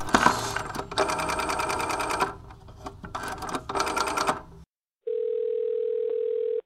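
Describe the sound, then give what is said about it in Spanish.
A telephone dials a hotel room with bursts of rapid mechanical clicking. After a brief silence, a steady, even phone tone holds to the end. “le voy a marcar a su habitación, pues para preguntarle algunas cositas, ¿vale? Acompáñenme a marcarle.”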